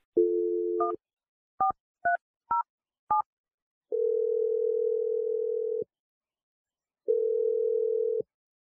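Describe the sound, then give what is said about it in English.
A telephone number is dialed: a steady dial tone is followed by five short touch-tone key beeps, then two long, even ringing tones separated by a pause. “I'm going to dial Kristen's number. We'll see if she answers and what she has to say.”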